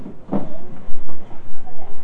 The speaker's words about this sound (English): Would you please put that high chair back? Help Daddy put the high chair back. Yeah, push it in the corner.